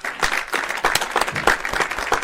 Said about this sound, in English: Let's give him a big round of applause.